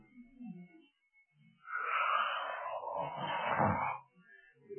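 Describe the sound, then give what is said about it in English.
A voice imitates a frog inhaling to puff itself up, drawing in a long, strained, wheezy breath that lasts a few seconds. Faint, brief vocal sounds come before and after it. “You know what that frog did? Well, he began to inhale.”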